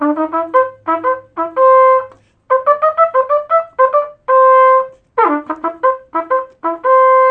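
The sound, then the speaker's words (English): Solo trumpet plays a stiff ragtime rhythm with even, march-like subdivision and syncopation, mostly short detached notes broken up by a few held tones, loud and clear with brief gaps between phrases. “I could play a quick example on my trumpet. This is typical ragtime rhythm. It's rather stiff and it's based on what we call military march music.”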